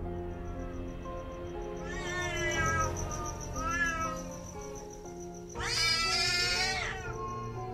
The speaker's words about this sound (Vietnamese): Con mèo bị tấn công bất ngờ, bỗng nhiên dựng lông lên, ngoao ngoao mấy tiếng, rồi sau đó nó gào lên, lao thẳng đến mâm cúng trừ tịch.